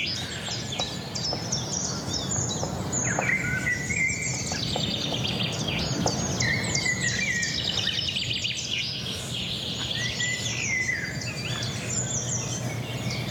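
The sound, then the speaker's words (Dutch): A great spotted woodpecker calls from high in a treetop amid a busy chorus of other birds, with many sharp chirps and tweets overlapping continuously. “Wat is dat? Dat is een grote bonte. Daar zit hij helemaal bovenin.”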